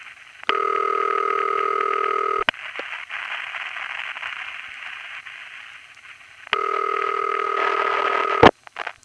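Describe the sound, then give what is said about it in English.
Telephone ringback tone, a standard city ring from Forest Hills, Queens: two steady, buzzy rings of about two seconds each, separated by a four-second pause. Line noise fills the gap, and a click marks the end of each ring. “This one's from Forest Hills. I'm sorry. And after the recording, we hear another standard City Ring from Richmond Hill, Queens.”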